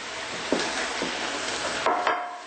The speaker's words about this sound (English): And now we're going to add the tofu mixture. That's gorgeous. To the fry pan.